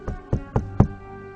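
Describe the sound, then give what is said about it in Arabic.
Four knocks on a morgue refrigerator door, dull and evenly spaced, each a short thud, with no voices around them. “العامل بتاع المشرحة لقيته بيخبط على الباب قبل”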